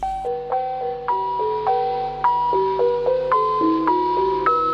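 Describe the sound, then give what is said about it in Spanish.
The NHK Radio Japan interval signal plays alone as a steady melodic run of clear, bell-like tones stepping up and down in an even rhythm. “¿Querés conocer la señal de intervalo? Y bueno, suena así, Juan.”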